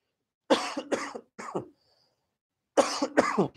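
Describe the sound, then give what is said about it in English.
A person coughs from a tickle in a dry throat: three harsh coughs in quick succession, a pause, then two more, with silence between. “sorry, I just had a slight tickle in the back of my throat there. My throat got really dry real quick.”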